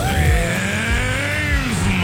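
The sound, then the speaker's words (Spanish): A revving car engine used as a contest sound cue, loud and continuous, its pitch swelling and dropping across a couple of throttle blips, with a rough low rumble beneath. “Cuando escuches el motor en La Ley, regístrate y participa para ganar $100 en gasolina.”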